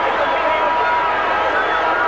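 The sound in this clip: A crowd at an Australian football game in which Footscray is playing spills onto the ground. It sounds as a dense, unbroken roar of cheering and babble, loud and steady throughout.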